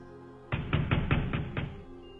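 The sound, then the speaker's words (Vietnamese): Six quick knocks on a door in a brisk, even rhythm, loud and alone against quiet background. “Rất nhanh đã có tiếng gõ cửa.”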